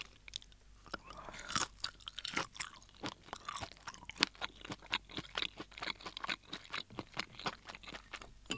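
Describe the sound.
Faint, close chewing of a small sausage from a Japanese supermarket soup base during a taste test. Many crisp, crunchy bites come in a steady, uneven rhythm throughout.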